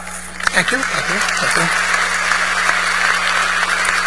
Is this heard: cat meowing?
no